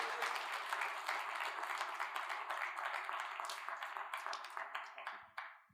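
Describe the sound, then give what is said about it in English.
Audience at a church service applauds to welcome a pastor: dense, sustained clapping at an even level that tapers off and stops near the end. “Just put your hands together and welcome my friend, Pastor Alan Griffin.”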